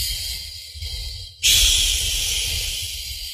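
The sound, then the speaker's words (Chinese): Slow exhalation through an open mouth during a breathing exercise: a soft breathy hiss that jumps to a strong, steady airy rush, then holds and very gradually weakens. “然后张开口，再进行缓慢的呼气，呼的时候越慢越好。”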